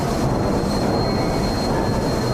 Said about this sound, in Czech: I hutní provoz, stejně jako hudba, má svůj pravidelný rytmus.